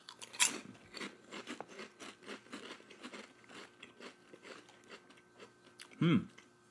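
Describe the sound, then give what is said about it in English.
Crunching and chewing of Bugles corn snack chips, a big handful eaten at once: many crisp, brittle bites and grinding chews in an irregular rhythm, with a louder crunch near the end. “you smell the Bugles more than anything. Jeez! That's a big pinch. One for each finger. All right, let's get into it.”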